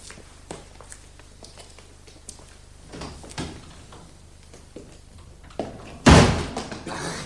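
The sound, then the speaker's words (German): A door thuds loudly once near the end as a visitor is let in, after several seconds of quiet shuffling and faint knocks. “Lass ihn rein, Watson. Versteck dich hinter der Tür.”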